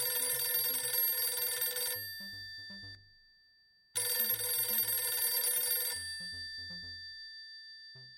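A telephone rings during a call, with two long ring bursts of about two seconds each separated by a silent gap. Each burst is followed by fading low tones, and no one speaks.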